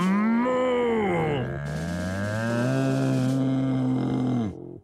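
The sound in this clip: A voice imitates a bull bellowing loudly and angrily: a long, low, groaning roar of nearly five seconds that sags and swells in pitch, then cuts off abruptly.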